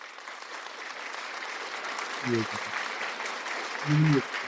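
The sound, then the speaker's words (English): An audience claps continuously, with a couple of brief vocal shouts rising above the steady clapping. “Well done, everyone. Round of applause, everybody.”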